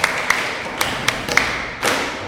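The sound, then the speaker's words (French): Clapping in a classroom: five sharp, separate claps at uneven intervals, then a short, louder burst of clapping near the end. “Très bien, applaudissez.”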